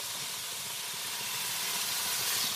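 Pieces of food sizzling on a teppanyaki griddle with adjustable temperature, a steady, dense, bright hiss that grows slightly louder over the few seconds, with no voices.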